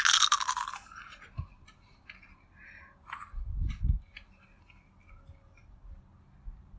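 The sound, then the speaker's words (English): Crunchy chewing of raw vegetables: a loud run of crisp crunching opens, then scattered, quieter bites and crunches follow with gaps between them. No one talks. “I'm gonna be around my vegetables. I'm gonna chow down.”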